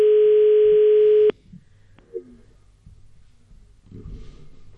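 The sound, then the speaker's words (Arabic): A telephone call tone sounds as a single steady, unbroken electronic buzz that cuts off abruptly after just over a second, leaving only faint, scattered background noise. “إذن الهاتف يرن توقف.”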